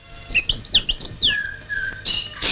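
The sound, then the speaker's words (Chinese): Birds in a tree at daybreak on a mountain ridge give quick, high chirps and twittering whistles, followed by a longer steady whistle and a few sharp final calls. “侦察员唐虎正在逗着树上的鸟儿。”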